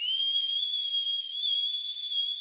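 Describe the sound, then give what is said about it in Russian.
A deafening two-finger whistle by a young woman, held as one piercing, steady high tone for the whole clip with only slight wavers in pitch and no other sounds. “Девушка ухмыльнулась и, взяв пальцы в рот, оглушительно свистнула.”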